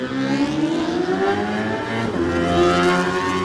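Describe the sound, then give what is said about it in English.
A Suzuki GSX-R 750 racing motorcycle launching off the start line in a wheelie at a race, its engine giving a loud, sustained, buzzy high-pitched drone rich in harmonics that holds steady throughout. “Sticking with GSXR power, the Club 77 machine of Tom Whedon, his 750 GSXR Suzuki gets away with a lovely little wheelie off the line.”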